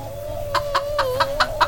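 Chickens cluck in a chicken run on a ramshackle farm, giving six short, evenly spaced clucks over a steady sustained tone.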